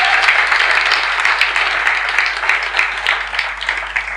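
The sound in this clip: A crowd applauds to welcome a speaker at a faith gathering, with sustained, even clapping from many people and a slight flutter in loudness throughout.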